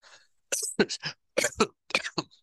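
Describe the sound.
Sneezing comes in a few sharp, explosive bursts after a brief quiet opening. The harsh noisy blasts arrive in quick clusters with short gaps between them.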